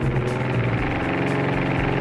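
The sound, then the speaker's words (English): A small airplane's engine at full throttle as it lines up on the runway center line for takeoff, a loud, steady droning roar holding constant throughout with no talk. “We taxi out, get it lined up with the center line of the runway. We apply full throttle.”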